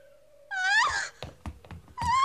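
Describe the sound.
A newborn baby cries just after birth, heard as two thin, wavering wails, a longer one near the start and a shorter one at the end, with brief knocks between them.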